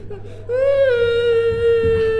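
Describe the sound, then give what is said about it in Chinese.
A child crying in a staged drama, a sustained, steady-pitched wailing cry that dips slightly and then holds level until the end. “好孩子，别哭了”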